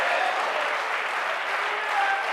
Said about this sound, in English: Everybody here can. Clap your hands and shout yes to the Lord.